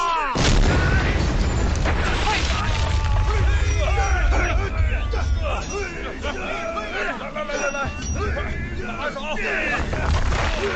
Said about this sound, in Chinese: 放炮啦！